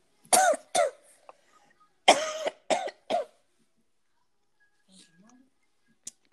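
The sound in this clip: A person choking on something in the throat coughs harshly: five loud, sharp coughs in two quick clusters, followed by near silence with a few faint sounds.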